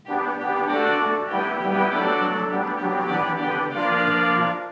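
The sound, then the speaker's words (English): A theater pipe organ sounding its reed stops: loud, sustained chords with a rich, buzzy, reedy tone, moving through a few chord changes without a break. “We also have reeds in the organ that sound like this.”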